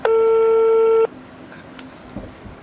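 A telephone call goes unanswered with a busy tone: a single loud, steady electronic tone lasts about a second, then cuts off into low background hiss.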